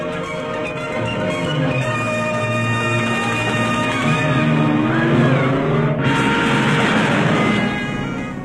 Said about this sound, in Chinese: 快开车，你认识路。